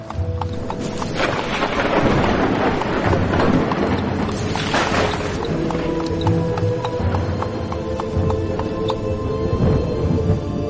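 Horse hooves clip-clop steadily as a farm cart serving as a makeshift ambulance rolls through a stormy night, with a low rumble underneath.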